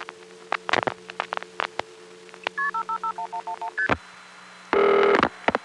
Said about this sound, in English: Let's listen to that call again, starting with the last digit dialed.